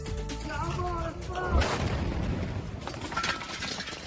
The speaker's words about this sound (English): A blast could be heard the moment Israeli airstrike hit a house in a Gaza City suburb Sunday.